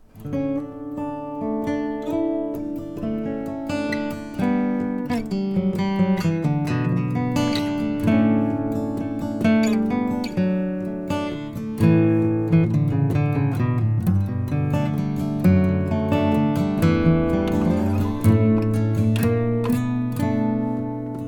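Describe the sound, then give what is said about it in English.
A custom-built, open-tuned nine-string guitar plays a folk tune, with a continuous flow of ringing plucked notes over resonant low drones, rich and shimmering throughout. “I play the guitar, and I play a very special type of guitar. It's a custom-built 9-string guitar, which is open-tuned, and it sounds something like this.”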